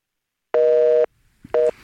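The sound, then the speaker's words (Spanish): A telephone busy signal after a call is cut off: one long steady electronic tone, a short gap with faint noise, then a second, briefer tone at the same pitch that ends abruptly. “ah, qué lástima que se, nos cortó, esta llamada con Dulce María Sauri.”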